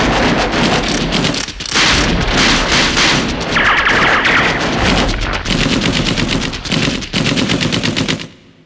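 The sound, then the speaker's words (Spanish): Loud, rapid gunshots from a pistol crackle in long, dense bursts, broken by a few short pauses before the firing stops. “Mira que me disparó el cabrón, no me ha dado ni un tiro”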